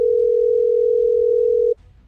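A telephone ringback tone plays while a call waits to be answered: one steady, continuous mid-pitched tone of nearly two seconds that cuts off abruptly into faint low background noise.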